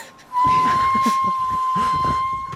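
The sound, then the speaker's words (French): A train's whistle rings as a loud, steady high tone held for nearly the whole stretch, over a busier, rumbling lower layer, heard as a mystery sound in a guessing game. “Je reconnais, c'est un train.”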